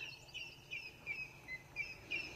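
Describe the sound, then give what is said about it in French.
Savanna birds, including turtle doves, call in faint, high chirps that repeat in short bursts over a steady low hiss. No voices can be heard. “Le son de la savane, je le reconnais entre mille, si j'ose dire. C'est assez étonnamment, c'est celui des oiseaux et en particulier celui des tourterelles.”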